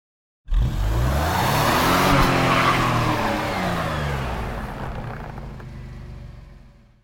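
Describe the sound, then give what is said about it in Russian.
Monster trucks rev their engines and spin their wheels while stuck in deep mud puddles: a loud, continuous roaring drone with a squealing edge that holds steady for several seconds, then gradually fades. “Монстр-траки начали вязнуть и буксовать в огромных лужах. Они закапывались все глубже и глубже.”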